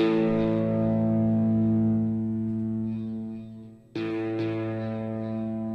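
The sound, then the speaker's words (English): Distorted electric guitar played through effects: a sustained chord rings out and slowly fades, then a second chord is struck and holds steady to the end. “I can hear your guitar now.”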